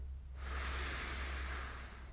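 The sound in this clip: A single long breath drawn in during a guided breathing exercise, a soft airy hiss that starts after a brief quiet moment and continues steadily and faintly to the end, with no talk.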